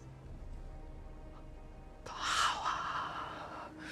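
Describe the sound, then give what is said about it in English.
A witch takes a long, sharp breath in through the nose, sniffing a scent. The breathy inhale rises abruptly out of near silence about halfway through and fades slowly toward the end. “The witch inhales Winifred's scent.”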